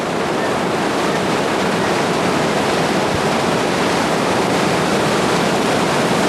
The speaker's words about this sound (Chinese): 潮水撞线战鳌塔，我想这一刻不只是壮观，更是属于盐官，属于钱塘江的经典瞬间。